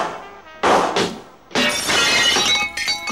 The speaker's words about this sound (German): Ich schlug mit meiner Kanone das Glas aus der Tür